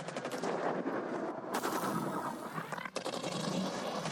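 Loud, sustained automatic gunfire in the Halo Infinite video game as troops open fire on enemy soldiers, with dense rapid bursts running almost without pause and a brief dip near the end.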